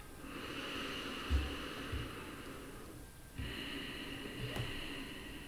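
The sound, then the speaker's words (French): Slow breathing in and out during a yoga breathing exercise: a long, soft airy draw and then an equally drawn-out breath through the nose with a faint snort, quiet and unhurried, with no talking. “Inspire. Expire. Et une dernière fois à ton propre rythme.”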